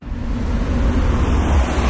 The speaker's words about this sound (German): Wir sind an der Kreuzung in der St. Galler Kreuzbleiche. Da fahren die Leute auf die Autobahn Richtung Gossau oder Rorschach oder Richtung Innenstadt oder aus der Stadt raus Richtung Appenzellerland. Jeden Tag fahren hier fast 25'000 Fahrzeuge